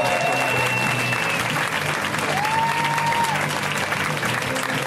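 Audience applause for a comedian being introduced at a comedy show: dense, continuous clapping from a crowd, holding a steady, loud level for the full five seconds.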